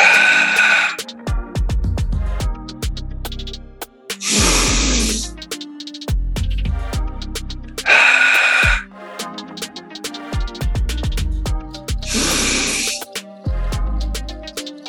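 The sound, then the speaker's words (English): Deep breathing during a guided breathwork session, with slow, airy inhales and exhales forming about two full breath cycles, heard over soft background music with sustained tones. “shutting down your eyes, taking a few deep inhales and release.”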